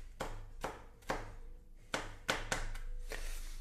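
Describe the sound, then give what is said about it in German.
Leftover onion pieces being chopped small with a knife, giving about seven sharp, separate chops at an uneven pace over a steady low hum. “Und habe ich hier noch ein paar restliche Zwiebelstückchen noch vom Frühstück können wir auch gleich klein dazu schneiden.”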